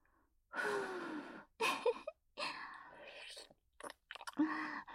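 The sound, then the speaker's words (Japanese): A voice blowing several breathy puffs of air, imitating blowing out a thick birthday-cake candle. The bursts are soft, airy hisses of uneven length with short gaps between them, and there is no other sound. “誕生日ケーキのぶっといろうそくみたいですね。ふうふうしちゃおうかな。”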